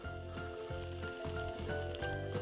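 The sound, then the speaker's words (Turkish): Halloumi cheese sizzles in a pan as it is fried on both sides for a breakfast burger, giving a steady, dense crackling hiss that carries on evenly throughout. “Peynirimizin iki tarafını da kızartıyoruz.”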